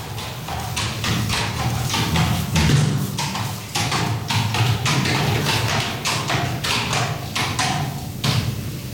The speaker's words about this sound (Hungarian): Vendéglátónk 5 futamban vesz részt, azaz már csak 4-ben, Bambina nevű lovával most ért a versenyből az istállóba.